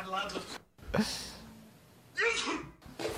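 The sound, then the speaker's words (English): A person sneezes loudly enough to startle a cat, with sharp, explosive bursts between faint vocal sounds at a fairly low level. “Did it scare the cat? Yeah, 100%. The sneeze scared the cat.”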